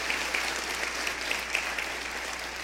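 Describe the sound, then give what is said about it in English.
A studio audience applauding, a dense, continuous wash of many hands clapping that holds steady and fairly loud from start to finish. “and the crowd's clapping”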